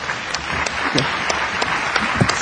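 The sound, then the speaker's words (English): Applause from a conference audience in an auditorium for two speakers at the close of a session: a continuous wash of many hands, with sharper individual claps popping out at irregular moments. “Perhaps you can give them a round of applause.”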